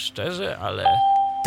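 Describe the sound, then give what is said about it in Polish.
A speaker plays a ding chime to signal that its volume has been set to maximum. The single clear tone follows a person talking and rings on steadily until the end. “Znaczy, to był dźwięk, że głośnik został podgłoszony aktualnie na full.”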